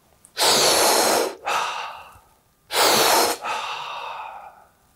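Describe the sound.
Two deep, loud breaths, each a sharp rushing intake followed by a softer, longer exhale that fades out, taken as part of a heart-centred breathing practice.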